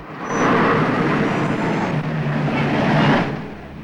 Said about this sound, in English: The pair get in and Hallam drives off. Samantha and the gunman follow at a distance.